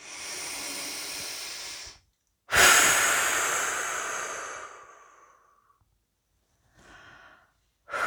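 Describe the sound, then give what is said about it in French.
Slow, deep breathing during a relaxation exercise to release tension: a few airy breaths separated by silences, including one long, hissing exhale that gradually fades, a short quiet breath, and another beginning as the sound ends. “Encore une fois, simplement avec notre souffle. Et une dernière fois si nécessaire.”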